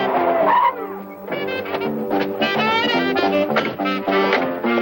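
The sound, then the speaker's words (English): A car pulls into a parking lot at a marina with loud, repeated tire squeals and a revving engine, the screeching whines rising and falling in several bursts with no voices. “On the boat, Rodell spots Dan and Charlie's car as it pulls into the parking lot.”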